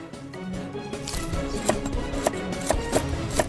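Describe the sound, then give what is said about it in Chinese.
Knife chopping tender Chinese toon sprouts, a steady run of light, crisp taps that grow sharper and more distinct partway through, over a soft continuous background. “也可以切碎摊鸡蛋。”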